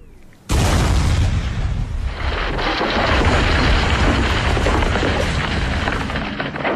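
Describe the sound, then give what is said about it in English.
A blasting-powder explosion destroys a windmill. A sudden, loud, deep boom comes in just after the start, then a sustained rumbling roar runs on for several seconds. “Do you not see what they are doing? They're going to pack blasting powder into that hole.”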